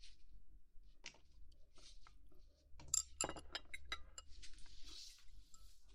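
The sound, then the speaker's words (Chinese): Soft chewing of someone eating Japanese food, with many irregular moist clicks and light crunches that stay quiet throughout. “我才懒得理你呢。我吃我的日料。”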